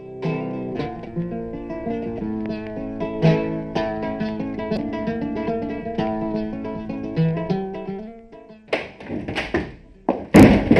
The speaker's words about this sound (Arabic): ماذا جرى لك يا امرأة؟ لماذا تصفقين الباب بعصبية هكذا؟